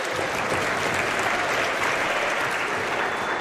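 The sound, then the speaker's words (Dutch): Audience applause after the announcement of the collection total: dense, steady clapping from many hands that holds an even loudness throughout, with no voices over it. “Jullie klappen altijd bij de collecte, hè? Maakt niet uit hoe hoog die is wel.”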